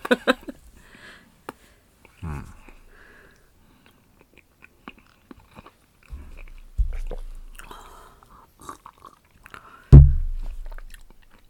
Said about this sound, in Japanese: 試してみるの？ うん。合わへんかったら合わへんって言うから大丈夫、うん、いいや。アポロ美味しい。